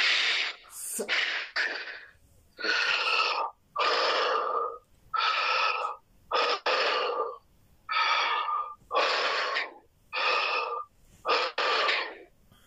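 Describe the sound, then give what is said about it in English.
Heavy breathing in and out through the mouth, heard over a phone line: a steady series of loud, breathy, rushing inhales and exhales with short pauses between, each breath forceful and noisy. “Just breathe in and out 5 times heavily with your mouth.”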